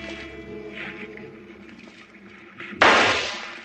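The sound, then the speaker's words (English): A single sharp rifle shot fired from a boat at sea, aimed at a finned creature in the water. A steady low engine hum runs beneath, then one loud crack bursts out near the end and decays over the last second. “Good shooting. You hit him right forward to the dorsal fin.”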